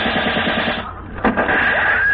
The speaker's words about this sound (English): Hey, those are bullets. Yeah, are we being shot at?